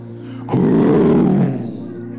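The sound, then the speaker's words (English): A single lion roar, a deep, loud, rumbling tone that starts abruptly, holds for about a second and then trails off into a softer rumble. “But when Benaniah heard that lion roar,”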